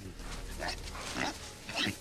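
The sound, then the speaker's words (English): A wild boar in reeds grunts and snuffles, a few rough low snorts over a steady low rumble. “It's a wild boar.”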